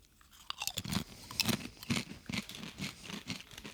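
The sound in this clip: Crunchy chewing of a piece of beetroot: many quick, irregular crunches and wet bites in a steady rhythm, fairly faint, with no talking.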